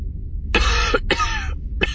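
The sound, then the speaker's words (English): An old, battered man coughing: three rough bursts, the first two long and hacking, the last brief, over a low rumbling background. “before coughing”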